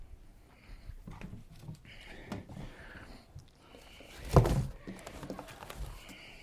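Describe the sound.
Hoofbeats of a horse named Rusty being ridden, a few uneven thuds and clops at a walking pace with a louder scuffing burst partway through, all fairly faint.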